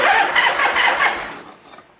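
An engine starts after a carburetor fuel line repair, with the choke unhooked at the carburetor. Loud, rapid, rhythmic firing pulses run for over a second, then fade and die away.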